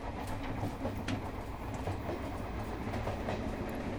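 A moving train with passenger cars in a video game, heard as a continuous, even rumbling roar with faint rhythmic clicks and no voices.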